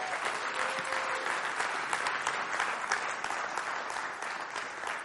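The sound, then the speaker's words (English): An audience applauds to welcome a pastor onto a church stage. The clapping is continuous, even and dense, with no break, and stays at a moderate level from start to finish. “Keep going. She's not on stage yet. It's just nice when they cheer, you know, it feels good.”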